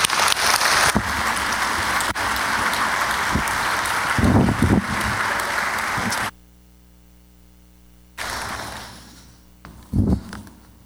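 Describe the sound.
Congregation applause at a morning church service welcomes a guest preacher: steady, full clapping for about six seconds that cuts off abruptly, then a quiet gap before more sound returns.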